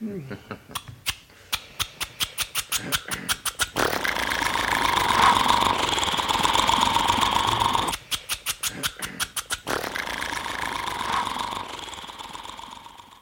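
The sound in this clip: An old car engine started without the crank: quick rhythmic chugging pulses that settle into a steady rumble, then another burst of chugs before the running hum returns.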